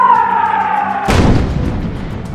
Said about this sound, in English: They shelled it with artillery all the time.